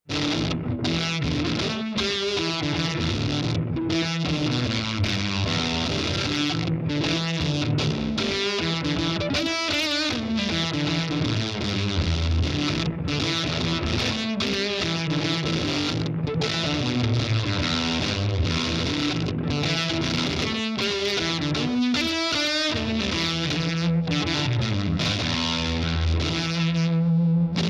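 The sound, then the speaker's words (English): Electric guitar played through an Effectrode tube drive pedal into a dirty, saggy amp, giving a thick overdriven tone. Sustained chords and single notes ring out continuously, with varied pitches and no pauses, for the whole stretch. “This has a bit of like a sag kind of sound to it, which I really like. This is a cool combination of using the tube drive into a dirty amp as well.”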